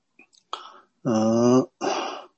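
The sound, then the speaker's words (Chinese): A single abrupt hiccup interrupts a Buddhist teaching talk. A short, sharp catch is followed by brief throaty voiced sounds. “打嗝，不好意思”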